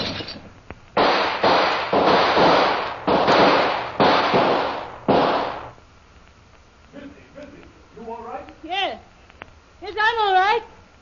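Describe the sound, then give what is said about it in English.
Five loud, sharp bursts of gunfire shot through a window come in quick succession, each one a broad blast with a short decay. After them, excited voices break out in short wavering cries. “Him shoot through window, then run off into bush, missy.”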